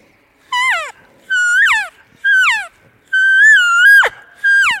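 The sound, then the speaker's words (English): Five nasal elk cow calls blown on a mouth diaphragm call, each a loud high whine that drops sharply in pitch at its end, the fourth held longest, with short silent gaps between them. “you make just such sweet cow calls with them”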